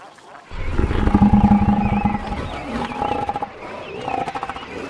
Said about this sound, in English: Half a million southern elephant seals also come here. Half the world's population. Two of the elephant seals tower over the surrounding penguin colony as they do battle with each other.